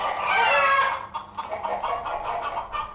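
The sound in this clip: Hens clucking in a chicken coop: a drawn-out call opens, then many short, busy clucks follow in an irregular rhythm, with no voices.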